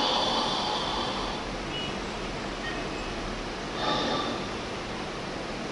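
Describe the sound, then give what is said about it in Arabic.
Deep breathing shown as a relaxation exercise: airy breath sounds, soft bursts of breath over a constant hiss, the out-breath let go slowly. “تاخد نفس عميق وتكتب نفسك شويه ثم تخرج النفس ببطء يعني كده اهو انا قلت لكم اهو كده اهو”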